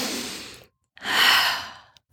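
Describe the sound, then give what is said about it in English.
A deep breath is drawn during a guided breathing exercise, heard as two airy breathing sounds split by a brief silence. The second is longer and fuller, swelling and then easing off. No words are spoken. “Now, let's take a breath in again.”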